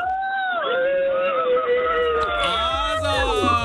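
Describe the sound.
A few listeners cheering and shouting over a telephone line after winning four tickets in a radio prize game, with loud, sustained, excited voices overlapping throughout.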